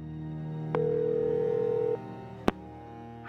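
A telephone call being dialed and ringing on the line: a steady electronic tone holds for about a second, then cuts off, followed by a single sharp click.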